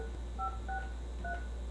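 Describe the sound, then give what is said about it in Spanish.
Phone keypad dialing tones beep as a call is placed, a few short, clean electronic tones spaced apart over a faint, steady low hum. “para marcarle al Junior”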